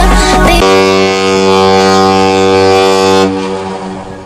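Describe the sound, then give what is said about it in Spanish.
A cruise ship's horn sounds as the vessel arrives at port in Melilla: one long, loud, steady low blast that follows a brief noisy start, holds without a break, then fades gradually away. “Y este es el sonido de la vida de la radio, el sonido de la vida en Melilla en estos días. Hoy es el segundo día de llegada de cruceros a nuestra ciudad.”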